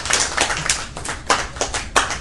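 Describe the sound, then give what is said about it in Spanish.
Audience applause at a talk in a comics café, made up of many uneven hand claps of varying loudness with no voices. “Carolix, también un aplauso para él.”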